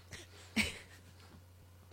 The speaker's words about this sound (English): Oh, pardon me. A snort. I got a snort. Pardon me.